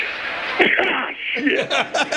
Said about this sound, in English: what was that? I sneezed.